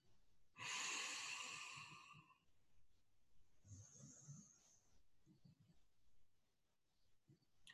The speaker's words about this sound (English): contracting the navel as you do so. Inhaling.